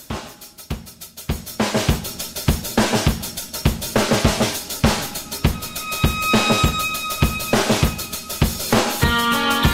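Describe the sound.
A rock song intro built on a crisp, martial drum beat of steady snare and kick hits. In the second half, sustained tonal string or guitar notes join the loud, insistent rhythm.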